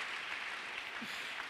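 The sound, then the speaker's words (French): Congregation applauding during a church service: a dense, steady wash of clapping that stays fairly faint and even throughout, with no distinct individual claps standing out. “Acclamons pour le Seigneur.”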